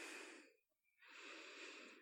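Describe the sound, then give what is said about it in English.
Slow, deep breathing during a relaxation exercise: a soft airy rush of breath, a short silent pause, then another long, even breath, faint throughout. “Feel your body and your mind loosen as you exhale, blowing all those thoughts away.”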